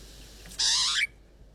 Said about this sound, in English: I felt bad because the Pied Butcher bird is one of my absolute favourites. So to say how much I enjoy hearing their calls and